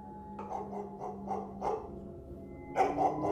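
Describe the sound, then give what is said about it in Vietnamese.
A neighbour's dog barks intermittently from an alley on a drizzly night, with a quick run of short barks, a pause, then a couple more sharp barks. “Ông đang đi đến gần nhà thì thấy từ trong ngõ vang lên tiếng sủa đứt đoạn của con chó nhà hàng xóm.”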